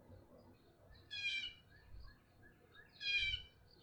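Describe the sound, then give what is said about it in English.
A blue jay perched in a maple near a bird feeder gives two short, harsh, raspy calls about two seconds apart. Both calls are faint over a quiet background. “I wonder if that blue jay's talking about me.”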